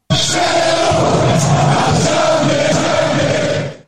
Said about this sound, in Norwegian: Han får ikke pinlig stillhet, han får i hvert fall en liten heiarop. Hei, hei, hei, hurra, det var kjempebra.